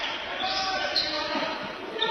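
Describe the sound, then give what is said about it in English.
A basketball is dribbled on the court during a game, giving repeated soft bounces half buried in a dense, steady wash of crowd noise. “Keeping his dribble alive.”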